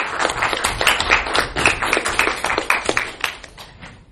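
Applause from an audience at a board of education meeting: dense, rapid clapping that holds steady for several seconds and then thins out toward the end, with no talking over it.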